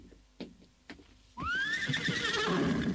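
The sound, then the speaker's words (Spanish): A horse whinnies near caves among large stones: one loud, long neigh with a wavering pitch that fills the second half, after a couple of soft thuds. “Eso es, caballito. Así me tienes que guiar.”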